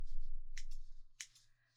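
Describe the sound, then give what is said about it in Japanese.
Scissors snipping through hair during a styling session, a few faint, crisp metallic cuts in two small clusters over a low, quiet background. “このように私が坊ちゃまの髪を切るのも15年を超えましたね。”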